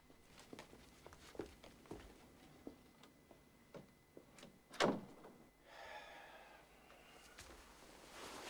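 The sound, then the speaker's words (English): A door being closed as someone leaves a room, heard as one sharp, loud knock-like thud among faint scattered ticks, followed by a soft rustling hiss. “Ben leaves the room, closing the door behind him.”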